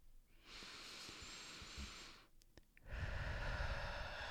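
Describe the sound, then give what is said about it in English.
A slow, deep breath taken during a guided meditation. A long, airy inhale is followed by a short pause, then a louder, breathy rush of air. “So I want you to take a nice deep breath with me.”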